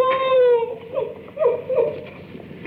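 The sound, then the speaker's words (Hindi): A woman crying: a drawn-out, tonal wail that sinks slightly in pitch, then a few broken, shorter sobbing cries. “ओहो, तो तू रोती क्यों है?”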